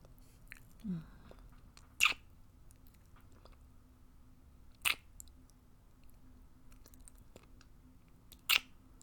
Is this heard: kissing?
yes